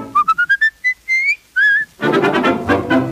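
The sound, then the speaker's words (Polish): A person whistling a tune: eight bright, clear notes, first five quick short ones, then longer held tones with a slight rising slide. A fuller, louder musical passage then takes over. “Bo ja lubię gwizdać, to przyjemność dzika, w ustach mieć słowika.”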